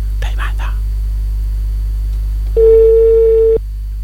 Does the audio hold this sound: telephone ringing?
yes